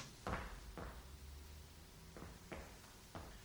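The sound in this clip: Clicks and knocks of a room door being unlocked and locked again; a few sharp, short thuds with quiet pauses between them.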